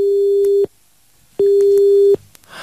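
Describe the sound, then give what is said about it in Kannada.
A phone busy tone after a dropped call: two long, steady, mid-pitched beeps separated by a pause of silence, loud and alone. “ಕರೆಯಲ್ಲಿ ಸ್ವಲ್ಪ ತೊಂದರೆ ಆಗಿ cut ಆಯಿತು.”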